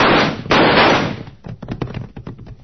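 Gunshot sound effects ring out in an old Western radio drama. Two loud, sharp blasts each trail off in a long noisy tail, followed by a run of quieter clicks and taps.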